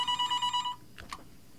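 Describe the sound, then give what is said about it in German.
A telephone rings for an incoming call: one short burst of rapid, high-pitched warbling pulses that lasts under a second, then stops, leaving near silence. “Oh, jetzt ruft äh, Feiri an. Eine Sekunde”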